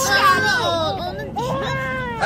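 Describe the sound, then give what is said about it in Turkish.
A baby cries just after waking, with loud, fussy wails whose pitch arches up and down across about two seconds. “Ağlama canım, ağlama. Sen ne tez uyandın.”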